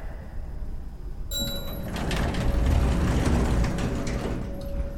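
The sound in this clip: An old elevator mechanism with dirty metal doors starts abruptly after a second of quiet hiss. It becomes a steady mechanical rumble and clatter with a faint sustained whine that swells slightly and holds.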